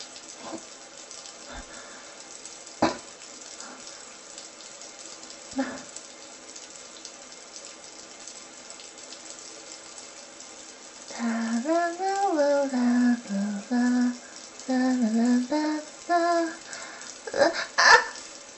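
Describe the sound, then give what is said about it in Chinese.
Water running for a bath, a steady, low hiss throughout with a few sharp knocks. A voice makes drawn-out vocal sounds over the water in the second half. “舒服吧，我要洗澡。”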